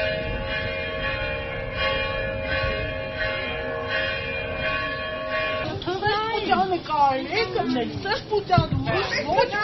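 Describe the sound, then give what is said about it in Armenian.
Church bells ring repeatedly, a steady sustained tone that fills the first half. Voices and commotion then come in over the ringing and continue to the end. “առաջնորդարանի դիմաց գտնվող 7 վերկ եկեղեցու զանգերը սկսեցին պարբերաբար ղողանջել”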